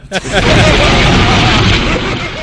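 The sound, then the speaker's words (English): Bomb explosion sound effect: a loud, sharp burst that opens into a dense, roaring rumble. The rumble holds heavy and sustained for about two seconds before easing slightly. “All right, drop a bomb on that bitch.”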